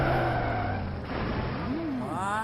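A car drives up and skids, giving a loud, continuous rush of engine and road noise. Squealing tones waver and bend through the sound.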